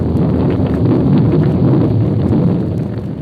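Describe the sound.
A furious night storm wind in the mountains, made as a 1950 radio drama sound effect, roars as a dense, steady, muffled rush of noise from start to finish, with no voices.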